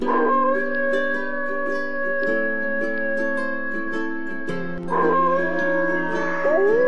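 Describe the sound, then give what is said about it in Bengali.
Several jackals howling in the distance, their long, wavering, overlapping calls sustained together and then swelling again in a fresh burst of howls near the end. “সেই সময় কিছু দূর থেকে কয়েকটা শেয়াল হঠাৎ করে ডাকতে শুরু করলো,”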